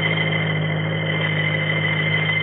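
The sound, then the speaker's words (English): A car engine's steady drone while driving, an even, unbroken hum that holds the same pitch for the whole short stretch, with nothing else heard over it. “Just where are we driving, John? Do you know that we lost the highway at least 3 miles back?”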